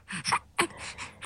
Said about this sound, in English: A mum trying to distract her baby as he struggles with his breathing.